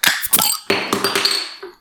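Glass beer bottles clinking together in a toast, a few quick, bright clinks with short ringing tones, each sharp and fading fast.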